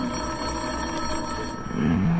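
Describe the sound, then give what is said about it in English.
A telephone bell starts ringing near the end, breaking into a quiet low hum that fills the rest of the short stretch. “One of the bells I didn't like. It was the phone.”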